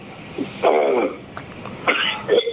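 Throat clearing from someone with something caught in the back of the throat, heard as two rough, gravelly bursts separated by a short pause.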